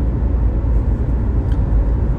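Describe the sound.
Steady, loud low rumble of engine and road noise inside a car while driving, continuous and even, with no talking.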